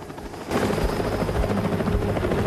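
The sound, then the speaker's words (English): A helicopter flies overhead, its rotors making a loud, steady, broad throbbing roar that grows noticeably louder after the first half second and then holds level. “The helicopter follows the chase down an alleyway.”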